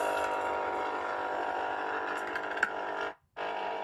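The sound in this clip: A coffee machine brewing coffee gives a steady, fairly loud mechanical whir with a faint rattle. The whir drops out briefly near the end, then starts again.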